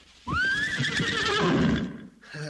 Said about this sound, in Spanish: Vamos uno, vamos caballito.